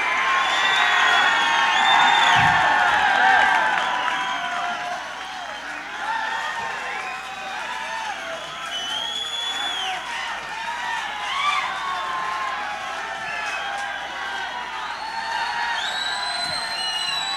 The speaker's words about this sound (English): This audience is not going to leave unless you guys do an encore.